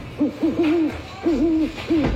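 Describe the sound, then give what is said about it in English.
An owl hoots in a short series of low, clear calls, some clipped and some drawn out, with pauses between the groups, heard on its own without any talk. “Here's an owl bowling a strike.”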